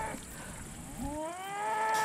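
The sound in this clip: A cow moos in a meadow enclosed by an electric fence. One long, rising call with a strong tonal, harmonic quality grows louder toward the end over low background noise.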